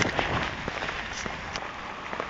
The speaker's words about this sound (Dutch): En ik loop nu naar de haven.